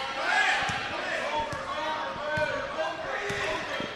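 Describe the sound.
A basketball is dribbled up the court during a game between ABS and Lindsay Lane, with dull bounces thudding at an uneven pace under steady crowd noise and voices.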